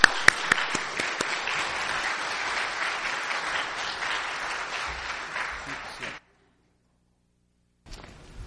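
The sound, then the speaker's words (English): An audience gives a big hand to a guest being welcomed before firemen, a loud, dense burst of applause lasting about six seconds that cuts off abruptly into silence, with a brief sound at the very end. “Let's give a big hand for Dan Timmons.”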